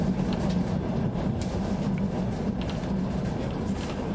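A train rolls along the Trans-Siberian Railway with a steady, dense low rumble and a continuous rushing drone, interrupted only by faint clicks above it and no voices.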